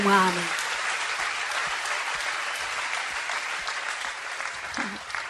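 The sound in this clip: An audience at a church service applauds with dense, sustained clapping. A voice is briefly heard at the start and again near the end.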